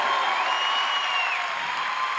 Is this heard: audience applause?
yes